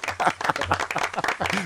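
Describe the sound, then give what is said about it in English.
A short round of applause: a burst of crisp, uneven hand claps from a small group, lasting under two seconds at a moderate level. “A round of applause for me.”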